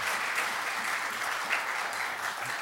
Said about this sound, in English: I think we ought to probably just give him a round of applause.